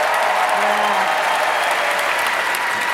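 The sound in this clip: An audience breaks into applause, a thick, continuous wash of clapping that stays at a steady level throughout.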